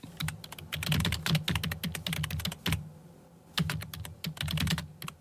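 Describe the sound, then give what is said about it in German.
Fingers type on a computer keyboard in a Berlin office, a rapid clatter of sharp key clicks. The typing comes in irregular bursts, with a short pause in the middle before the quick tapping resumes. “So klingt's in vielen Berliner Büros längst nicht mehr.”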